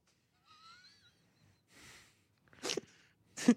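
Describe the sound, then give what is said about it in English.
A quiet, small sneeze comes from a large, tall man. Faint breathy sounds come first, then two short, sharp bursts close together. “What a demure sneeze you have for such a large, tall man.”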